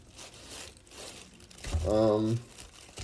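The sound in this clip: Something is torn off by hand with crinkly ripping and crumpling, without a knife. The rustling, papery texture runs steadily throughout, and a brief voice cuts in partway through.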